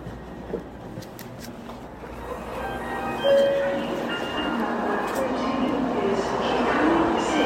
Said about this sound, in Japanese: 京都駅に到着しましたもうすぐ止まりますではこれから降りたいと思います